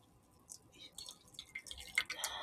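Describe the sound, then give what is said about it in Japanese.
Faint trickling and dripping as organic coffee is poured from a coffee bottle into a warmed mug. The soft splashes come unevenly, and a few sharper drips stand out near the end. “コーヒー専用ボトル、カフア、えー、そして、えー、温めておいた、えー、マグカップに、ペルオーガニック、えー、注いでおります”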